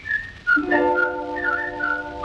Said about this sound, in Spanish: El silbido clave porteña que ella esperaba con tanta ansiedad.